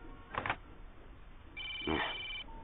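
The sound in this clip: Telephone ringing with an electronic ring tone: a short burst, then after a pause a longer, steady, fairly loud ring.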